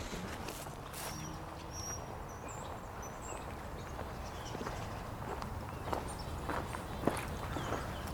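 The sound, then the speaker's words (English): Footsteps of people walking north toward Willamette Park in Corvallis, Oregon: faint, steady steps under a constant wash of outdoor background noise, with no talk. “We're walking north toward Willamette Park here in Corvallis, Oregon.”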